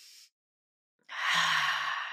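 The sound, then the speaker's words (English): A deep breath drawn through a congested nose: a short hiss, a moment of silence, then a long, loud, airy breath with a faint low rasp running through it. “All right, take a deep breath. I'm congested, so it sounds a little icky for me, but take one more.”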